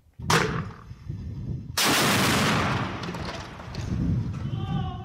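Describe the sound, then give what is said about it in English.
A TOW missile launched at a government aircraft at Aleppo's international airport: a sharp bang, then a louder blast that swells into a long, roaring rush slowly dying away, with a man's voice shouting near the end. “حركة حزم إطلاق صاروخ تاو على إحدى طائرات النظام الأسدي في مطار حلب الدولي”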